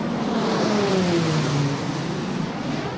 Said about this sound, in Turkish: TUSAŞ tesislerinde teslimat töreni yapılan iki Hürkuş şu an ilk selamlama uçuşunu gerçekleştiriyor.